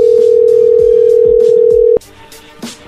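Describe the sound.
A telephone dial tone sounds after a telemarketing call is hung up: one steady, loud, unchanging pitch held for about two seconds before it cuts off abruptly, leaving faint background sounds.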